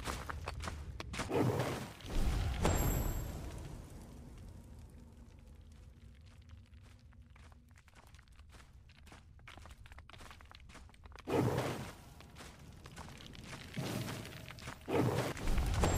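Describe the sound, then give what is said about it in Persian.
In a video game, a dust distortion creature is hit by a thrown fire attack: rough, noisy bursts at the start, a long quiet stretch with faint crackling, then more bursts toward the end. “این صدایی که میشنوید صدای دیستورشن خاکه که با آتیش میشه نابودش کرد. به بالا سوایپ میکنم تا آتیش رو انتخاب کنم، به چپ سوایپ میکنم و آتیش رو بهش پرت میکنم تا بمیره.”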